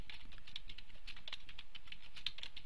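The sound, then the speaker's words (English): Rapid typing on a computer keyboard, many faint, quick key clicks in an uneven patter that continues steadily without pause. “And I'm going to type in, let's see, number of page hits. If I can type.”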